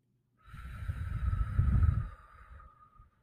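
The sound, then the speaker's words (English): A deep breath is drawn through the nose during a guided breathing exercise, a single soft, airy rush that swells and then trails off quietly, with no talking. “I want you to take a deep breath through your nose and then another deep breath through your nose while holding that. And then slowly exhale through your mouth.”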